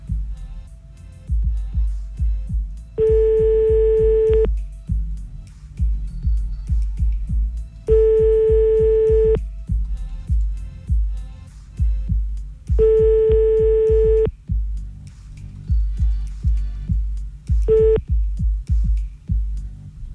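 A telephone line tone plays while a call is being redialed: a steady mid-pitched tone sounds three times for about a second and a half each, with long gaps between, then a brief fourth burst, over a low rhythmic background.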